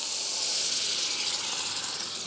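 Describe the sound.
A steady, loud sizzling hiss rises as vinegar deglazes fried mushrooms, red onions and garlic in a hot pan. The broad, airy steam noise stays constant throughout.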